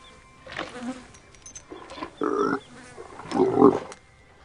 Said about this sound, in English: As the animals eat, flies buzz about.